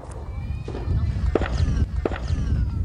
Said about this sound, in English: where the shooting continued. ISIS has been attacking Mahmudin village for nearly a month.